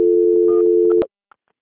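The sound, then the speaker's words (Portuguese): Telephone call transfer tone: a steady, mid-pitched beep holds evenly for about a second, cuts off abruptly, and is followed by a couple of faint short clicks on the line. “Eu vou transferir aqui e já já a senhora aguarda em linha que já já vão te atender.”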